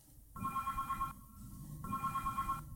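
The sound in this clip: Telephone ringing with an incoming call to a radio studio: two trilling ring bursts with a pause between them, fairly faint, with no voices.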